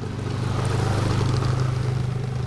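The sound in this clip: A snowmobile engine running in central Vermont, giving a steady low drone with a fast pulsing flutter and a constant, fairly loud level throughout.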